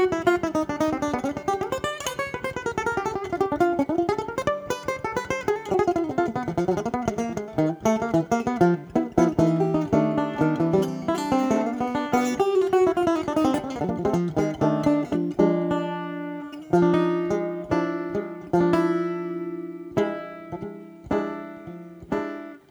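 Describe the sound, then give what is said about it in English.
A banjo is played alone: a quick run of bright plucked notes with ringing harmonics gives way to slower, separate strikes that decay between picks. “that's why when I play, I like when the banjo sounds like this.”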